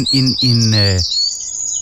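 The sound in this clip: Birdsong from a recording made outdoors in a garden: bright, high chirps that sweep in pitch, with a low voice talking under the first second.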